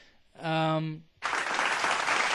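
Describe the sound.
Applause sound effect: a steady wash of clapping that starts abruptly and holds at an even level, preceded by a short, bright voiced note.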